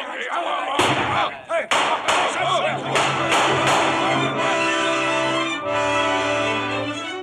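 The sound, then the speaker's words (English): Pistol gunshots ring out in a pirate shootout staged for a radio drama: a rapid series of many sharp cracks over sustained musical tones. “Long John Silver had fired only once. The other shots came from Dr. Livesey, the squire, Mr. Gray, and Ben Gunn.”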